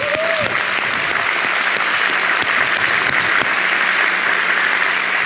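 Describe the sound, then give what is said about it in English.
An audience applauds to welcome a speaker, a dense, even wash of many hands clapping that holds steady and loud for about five seconds. “So would you welcome Mr. Delgado? Give him a hand, please.”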